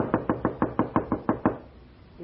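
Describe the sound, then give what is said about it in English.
A bellboy pounds on a door with nine quick, evenly spaced heavy knocks, loud and sharp. The knocking then stops, leaving near-silence. “with the bellboy pounding on the door”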